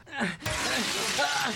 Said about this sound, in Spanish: ¡Quítate de allí y yo patearé el vidrio!